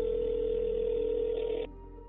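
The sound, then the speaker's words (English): A steady telephone dial tone from a phone call hums continuously, then cuts off abruptly about three-quarters of the way through, leaving only a quieter low background. “Detective Linkscheid actually calls her up on the phone”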